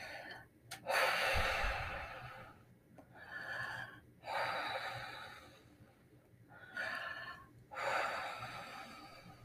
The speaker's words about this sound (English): Take a deep breath.